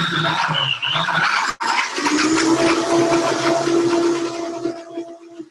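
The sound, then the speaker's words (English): A blender running on low, mixing coconut butter with other ingredients, gives a loud, steady whirring drone. It cuts out briefly early on, then resumes as an even motor hum with a faint churning texture that eases slightly at the end. “You just want to basically blend up that coconut butter with these other ingredients. So I'm just going to start on low and kind of get it to stir up a little bit.”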